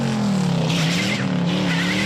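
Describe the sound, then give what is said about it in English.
Tires of a Mustang car screech during a chase as it reverses and corrects after missing a turn. The squeal is loud, continuous and tonal, holding a steady pitch with a slight dip. “Bullitt misses the turn, slams the Mustang into reverse, and corrects his mistake, tires screeching.”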